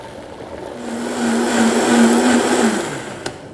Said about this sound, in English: I'm going to add my tomatillos. And puree this until it's smooth, and then I'll add my cilantro.